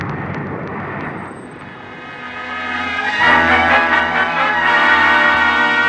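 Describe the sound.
An airplane takes off from LaGuardia airfield, its engine a steady droning roar with strong tonal harmonics that swells louder midway through and then holds.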